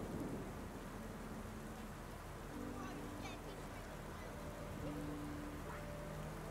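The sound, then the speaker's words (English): Steady rain pouring down on a train's windows, a continuous dense hiss and patter that holds at an even level throughout. “As the rain pours down, you can see drizzle on the windows of the train”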